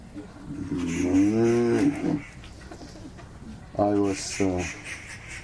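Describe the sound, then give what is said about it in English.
A bull moos: one long, low, drawn-out call, then after a pause two shorter calls in quick succession. “I could hear when a bull was mowing or when a cow was mowing, you know, it's like there's a difference in the way they speak. Bull, that was a bull.”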